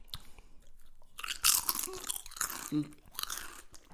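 Crunchy chewing of food while eating, a few crisp bites and munches, quiet and close, with brief pauses between bursts and no talk.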